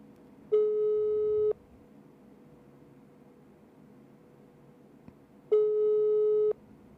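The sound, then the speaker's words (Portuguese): Telephone ringback tone while a call waits to be answered: two steady, low-pitched tones, each about one second long, about four seconds apart, with faint line hiss in between. “Só mais um toque, se não atender, a gente deixa quieto.”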